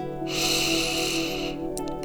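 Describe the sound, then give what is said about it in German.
A deep breath is drawn in through the nose or mouth as one smooth, sustained inhalation lasting just over a second, rising in from quiet and stopping cleanly. “Nun atme für 4 Sekunden tief ein.”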